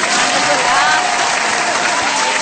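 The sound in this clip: Audience applause during a Telugu talk show: a dense, steady wash of many hands clapping at once, loud and unbroken from start to finish, with no clear pauses or individual claps standing out.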